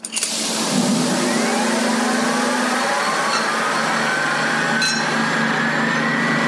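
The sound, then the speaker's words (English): Old machines start up, gear up and begin pumping in a loud, continuous mechanical whir, with faint tones that gradually climb in pitch and a couple of sharp clicks, one near the start and one around the middle. “One by one, the machines turned on, geared up, and started pumping.”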